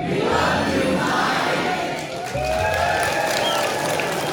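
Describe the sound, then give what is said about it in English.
An opening-night audience at the Telluride film festival cheers and applauds loudly for director Mike Leigh, with shouting voices in the roar. The noise dips briefly near the middle, then surges back up. “And the Telluride audience were prompted to let Mike Leigh know just how much they appreciated him.”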